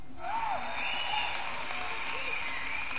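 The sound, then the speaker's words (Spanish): Audience applause at a festive music celebration welcoming a mandolin player, a dense steady clapping with crowd voices and cheers rising over it throughout. “Muy merecidos esos aplausos.”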